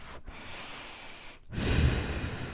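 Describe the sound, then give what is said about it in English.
Slow breath pushed out through tightly pressed lips as if through a straw: a soft, steady airy hiss that stops briefly twice and then grows a little stronger toward the end. “when you're breathing out, I want you to breathe out through a straw. So that you're going,”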